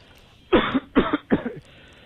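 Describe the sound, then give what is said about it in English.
A man coughs three times in quick succession, each cough harsh and fairly loud, with no talk around them. “He's coughing the whole time.”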